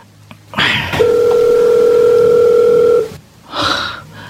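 A telephone ringing tone on an outgoing call: one steady, clear tone holding for about two seconds, with faint breathy rustling before it and after it.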